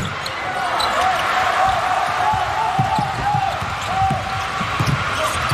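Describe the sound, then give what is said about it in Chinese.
Basketball dribbled across half court during a professional game, with many dull, low thumps in an uneven rhythm beneath a commentator's steady talk. “李贤仲啊，带球过半场，把球再交出去”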